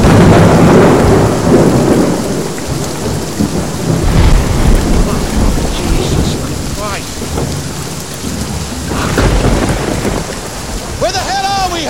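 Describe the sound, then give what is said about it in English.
A thunderstorm with driving rain: loud, dense rain hammers down without pause while deep thunder rolls and rumbles through it, swelling and easing in waves. “Lightning flashes as they plod through the driving rain with lights on, jackets fastened, and hoods up.”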